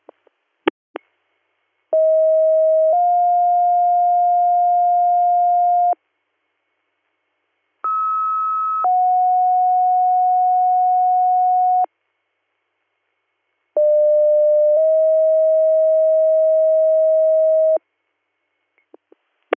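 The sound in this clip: Emergency dispatch paging tones over a radio scanner: three steady two-tone sequences, each a short tone then a longer held tone at a different pitch, separated by silences and framed by brief radio clicks.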